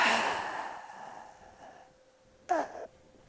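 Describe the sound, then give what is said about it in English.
A forceful exhalation pushes out every bit of air during a breathing demonstration. The breath starts strong and breathy, then fades over about two seconds, followed by a short breathy burst. “we blow out every bit of air.”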